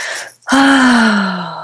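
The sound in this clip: Deep breath taken during a calming finger-tapping exercise: a brief airy intake, a short pause, then a long voiced exhale like a sigh that sinks slowly in pitch.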